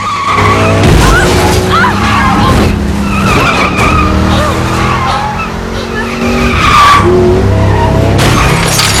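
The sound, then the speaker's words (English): A Jeep 4x4 ramming a car, heard as loud engines roaring and revving with sharp squealing tires and skidding running through the whole stretch. “The Jeep hits with enough force to break Chloe's side window.”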